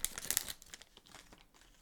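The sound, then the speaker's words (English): Wrapper of a hockey trading card pack crinkling and tearing as it is opened, with sharp crackles at the start that fade into softer rustling. “I like opening up the cards on the show. It's a fun way to wrap up the show.”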